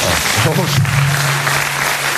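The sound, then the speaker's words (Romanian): Applause from an audience asked to clap during a talk show: a steady wash of many hands clapping, with a low hum underneath and a brief voice over it. “Și să aplaud de cei care sunt foarte dezamăgiți de Nicușor.”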